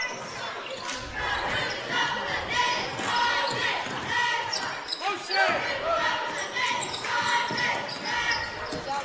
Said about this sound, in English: dribbling at the top of the key